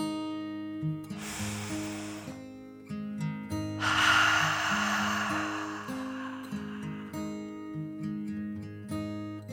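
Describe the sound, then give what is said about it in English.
A deep slow breath drawn in and let out as a relaxation exercise, heard as two long, airy, hissing rushes over a soft, sustained musical backing. “She took another deep dragon breath in and out.”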